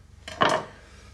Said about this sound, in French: je dépose les quartiers de tomates lavés dans mon assiette